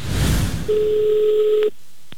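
A telephone dialing a taxi service: a steady electronic tone holds for about a second, then cuts off, and two short, separate key beeps follow.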